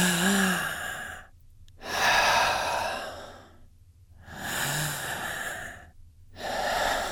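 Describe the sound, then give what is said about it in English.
Slow, deep breathing, two full breath cycles of loud, airy inhales and exhales separated by short silent pauses. No talking. “That was just two breaths.”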